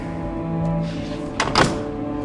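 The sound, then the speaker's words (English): A door is pushed shut from a hallway, giving a soft, brief thunk with a small second knock midway through. The sound is faint over a steady, humming musical drone, with no talk. “stuffs it into the door as he closes it shut”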